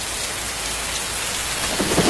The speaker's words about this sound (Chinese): 这是风声，这是雨声，